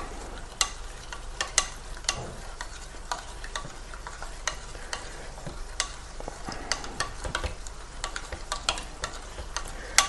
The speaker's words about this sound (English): So we're using just ordinary cold water here. And we'll give it a bit of a, it just means you've got to mix it a little bit more.